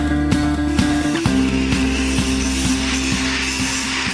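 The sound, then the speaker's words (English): Sections of industrial pipe being welded together for a proposed oil pipeline: a loud, steady mechanical hum with regular clicking ticks about twice a second throughout. “That's the sound of links of industrial pipe being welded together.”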